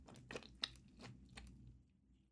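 Chewing and crunching of spicy food: a few crisp bites and moist chewing sounds in an uneven rhythm, fairly quiet, with no talking.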